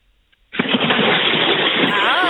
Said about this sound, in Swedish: Så ska det låta. Så där låter ett bad. Ja, nu har vi liksom tydliga ljudbevis på att det har ägt rum.